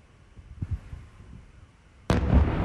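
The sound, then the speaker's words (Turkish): Explosions during a night bombardment of Kyiv with ballistic missiles. A few faint, low thuds come first, then a sudden loud blast breaks in and keeps rumbling heavily to the end. “Sirenler çaldı, patlamalar peş peşe geldi.”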